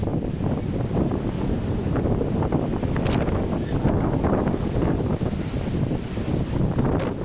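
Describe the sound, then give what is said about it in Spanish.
Strong Martiño wind blowing in the morning in Lugo, a loud, continuous roar of gusts buffeting the microphone from start to finish. “Así soplaba Martiño, el viento de Martiño, esta mañana aquí en Lugo.”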